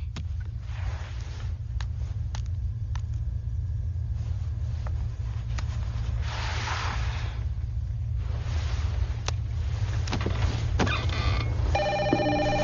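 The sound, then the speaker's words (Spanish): A telephone rings on a private office line in a dubbed Spanish film scene. The ring comes in briefly near the end over a steady low rumble and scattered soft noises. “¿Qué teléfono sonó? Es la línea privada de Charlie, en su oficina.”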